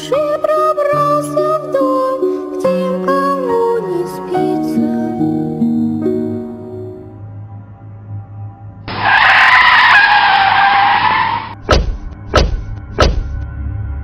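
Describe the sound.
A car skids with its tires squealing: one loud, sustained screech of about three seconds with wavering pitch, followed by a few sharp knocks.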